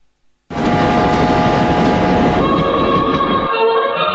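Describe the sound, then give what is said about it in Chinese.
A passenger train travelling from Hangzhou to Beijing makes a loud, steady rumble with rattling and clatter that starts abruptly and runs throughout, its tone shifting slightly partway through and again near the end. “搭上了从杭州开往北京的列车”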